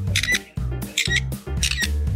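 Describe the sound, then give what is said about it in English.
A bird mimicking a camera shutter gives three quick, evenly spaced clicking bursts with bright, sharp high edges over a steady low background. “when you first hear it, kind of sounds exactly like a camera shutter, right? But it actually is a bird.”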